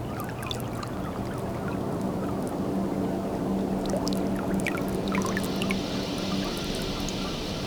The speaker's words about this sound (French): La marée est en train de monter tout doucement.